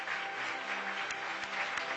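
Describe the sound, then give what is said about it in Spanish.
Applause rises from a worship gathering, a fairly faint, even patter of many hands with a few sharper claps standing out over two seconds. “Fuerte el aplauso al amor del Señor.”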